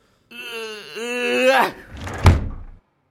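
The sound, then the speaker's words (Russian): A door is slammed loudly: a drawn-out, groaning tonal sound swells and breaks off, then a single dull thud lands and fades. “Ушел бывший хозяин, несолоно хлебавши, громко-громко дверью хлопнул.”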